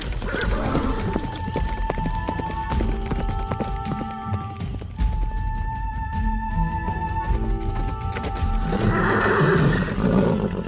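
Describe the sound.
Horses setting off on a ride, with hoofbeats and a whinny inside a loud, dense, continuous wash of sound and sustained tones that carries on throughout.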